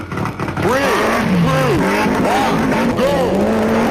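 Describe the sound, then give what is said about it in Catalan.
Rally car engine sound from a rally video game, revving in repeated rising and falling sweeps of pitch over a steady, loud, continuous roar. “Jo quan penso en el World Rally Championship, el que sento en realitat és això.”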